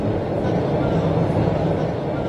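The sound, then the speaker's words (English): Steady, loud rumble and hiss of a subway train heading downtown, a dense, unbroken roar without distinct separate events from start to end. “So here we are, on the subway, heading downtown.”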